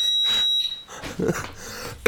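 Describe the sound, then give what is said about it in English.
A house alarm goes off with a high, piercing, steady electronic tone that stops after under a second. Other muffled, irregular sounds follow. “It's the alarm, house alarm.”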